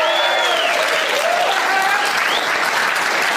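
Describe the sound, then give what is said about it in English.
Dense, steady applause from an audience at the Waiting Room Lounge in Omaha, Nebraska, loud and continuous throughout the short stretch. “you don't need to leave the applause sign on for so long.”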